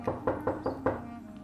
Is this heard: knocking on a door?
yes